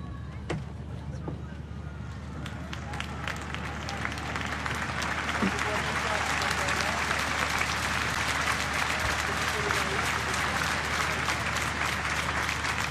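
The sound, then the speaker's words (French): Crowd cheering and applauding at a papal mass celebrated by Pope Leo XIV: dense, steady clapping and joyful crowd noise that swells after the first few seconds and stays loud throughout. “Et on entend la foule et la joie,”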